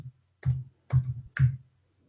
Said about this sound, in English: Let me click on Google and go reboot.